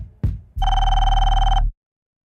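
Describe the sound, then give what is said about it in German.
A telephone rings with an incoming call: a brief click, then a single loud, steady electronic ring lasting about a second before it stops abruptly into silence. “Und dann bekommt ihr Marketingchef Eckert einen Anruf.”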